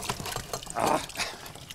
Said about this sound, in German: Den Eimer in die Hand. Ist ja logisch, dass es daneben spritzt.